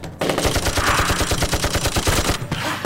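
Rapid automatic gunfire in a video game shootout: many loud shots in a fast, steady rhythm, briefly breaking off near the end before a few more rounds resume.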